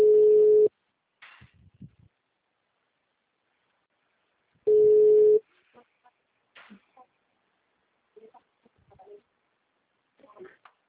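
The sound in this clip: Telephone ringback tone while a call connects: two steady, mid-pitched pulses of about a second each, spaced a few seconds apart, with soft, brief speech sounds in the gaps between.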